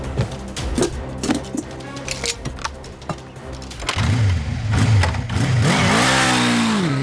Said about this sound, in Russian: Жми на тормоза. А где они? Ты неплохо водишь машину-невидимку.